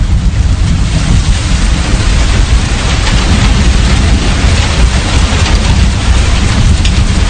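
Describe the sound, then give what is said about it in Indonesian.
Heavy rain pours steadily over Bandung in a dense, unbroken wash of hiss with a deep low rumble beneath, loud and constant throughout, with no voices. “karena hari itu Bandung sedang diguyur hujan, membuatku harus menunggu sampai hujan reda.”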